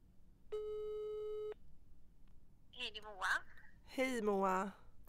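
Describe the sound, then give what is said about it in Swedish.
An outgoing telephone call gives a single ringback tone, a steady tone lasting about one second. People then talk. “Jag provar ringa henne.”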